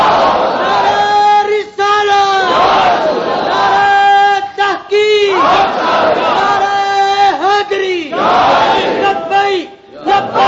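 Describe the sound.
A crowd answers a takbir call by chanting "Allahu Akbar" in loud unison. The chant comes in several sustained, strongly pitched phrases separated by brief breaks, with many voices blending into one droning call.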